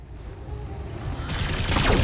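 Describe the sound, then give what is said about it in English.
Rapid machine-gun fire and small-laser shots from a Locust mech in a video game battle, hitting an enemy Shadowhawk. It begins as a low, steady rumble and turns into a dense run of sharp, loud bursts from about halfway on. “Hit with the small laser and some machine gun hits.”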